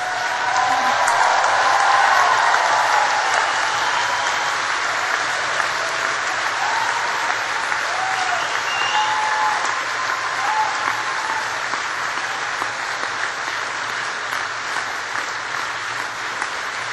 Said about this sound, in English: And please now turn around and give a big round of applause to all those people who have supported you.